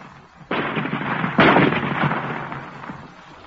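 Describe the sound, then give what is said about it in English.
A weapon fires at a rock, the blasts splitting it apart: two loud, noisy bursts, the second stronger, each followed by a sustained rushing roar that slowly fades. “Ready with the range? They have found the range, Commander. You may fire. Fire!”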